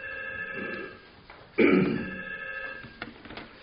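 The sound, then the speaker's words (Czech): A telephone rings during a public meeting with a warbling electronic tone at moderate level. It pauses, then returns louder with a rougher burst before trailing off. “Tak, to je telefon příhodně asi.”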